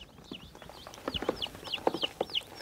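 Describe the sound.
Hens or a broody turkey hen cluck in an improvised coop. Low, irregular clucks mix with many faint, high, repeated chirps at a fairly quiet level.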